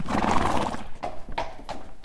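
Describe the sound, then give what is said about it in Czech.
Hooves of a horse being led before saddling, a few dull clip-clop steps at an uneven pace over steady background noise. “Takže teď jsi přivedl Majboje, jdeme pro sedlo.”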